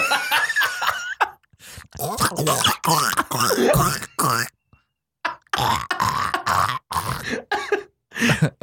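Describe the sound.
Guttural throat sounds, grunts and throat clearing made by a person mimicking deep-throat ASMR, in choppy bursts separated by short pauses, mixed with snickering laughter.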